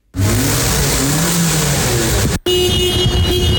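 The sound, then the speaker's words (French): Car engines run and rev at a busy vehicle inspection centre, a loud continuous mechanical roar that cuts out briefly before resuming as a steadier, higher whine. “Nous sommes à Plaine-Leuzon dans un centre de contrôle technique où plus de 300 véhicules passent chaque jour leur fitness”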